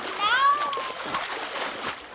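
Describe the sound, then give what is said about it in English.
Children swim and splash in water during a summer camp swim session. Kids' voices call out over the moderately quiet splashing throughout. “And many campers' favorite activity, swimming.”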